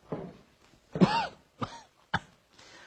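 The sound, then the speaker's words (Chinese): A voice imitates a coughing fit: four harsh, separate cough bursts spaced roughly half a second apart, the second one strongest and longest, fading to a faint rasp at the end. “连咳嗽带喘。”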